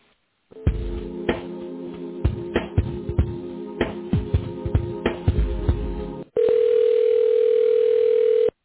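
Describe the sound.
Telephone line tones play while an office call is transferred to a colleague: a stretch of rapid, rhythmic pulsing tones, then a steady continuous tone that holds to the end. No voices are heard.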